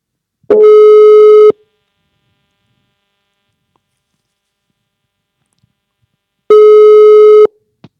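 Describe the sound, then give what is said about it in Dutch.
Telephone ringback tone while placing a call: two steady, buzzing beeps of about one second each, separated by a long silence, loud and with no voices. “Zullen we Rinke bellen? Lijkt me een goed plan. Oké, kijken of die eh, klaar zit.”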